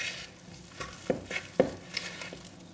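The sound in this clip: Almond milk is stirred into vegan brownie batter, a few soft, wet scraping strokes against a quiet background.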